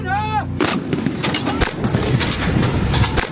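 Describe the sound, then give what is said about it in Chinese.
An artillery gun fires at a simulated bunker 1000 m away during a live-fire assessment. A heavy boom is followed by a long, rumbling roll and another sharp crack. “随后炮班要在1000米外对模拟地堡进行精准摧毁，面对瞬息万变的战场态势，炮长指挥班组在滚滚硝烟中实现快打快撤。”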